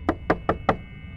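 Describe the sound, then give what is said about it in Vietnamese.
Heavy knocking on a toilet door: four evenly spaced, dull thuds, each short and solid, followed by a quiet pause. “âm thanh chậm chậm nhưng rất nặng nề phát ra từ việc gõ vào cánh cửa nhà vệ sinh lại vẫn tiếp tục vang lên.”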